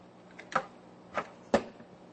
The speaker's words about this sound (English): So let me go ahead and insert my SD card here into the slot.